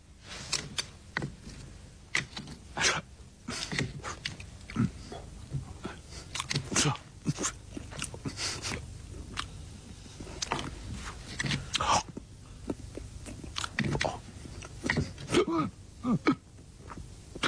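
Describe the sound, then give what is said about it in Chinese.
Loud lip-smacking and chewing while eating a spicy Sichuan dish seasoned with Sichuan pepper and black pepper, with many wet, sharp smacks in an irregular, steady rhythm. “主要就是听到了这个恶心和吧唧嘴。”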